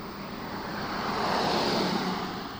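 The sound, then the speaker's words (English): Wind sweeps leaves along a road in a steady, broad rushing whoosh that swells slightly in the middle and then eases off, with no voices. “with compelling wind, migratory herds of leaves race along the road.”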